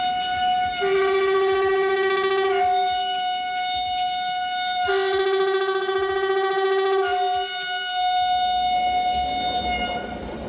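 A restored train, running again after ten years, arrives along track 2 with a loud, sustained horn blast. The chord-like tone shifts between a fuller two-note sound and a single higher note over several long stretches.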